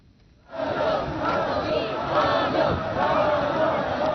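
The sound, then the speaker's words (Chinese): Crowds in national costume lining the road in Pyongyang cheer Xi Jinping's motorcade, a loud, sustained roar of shouting voices that surges in after a quiet half-second and stays strong throughout. “在前往木兰馆的路上，沿途站满身着民族盛装的热情民众，热烈欢迎习近平的车队经过。”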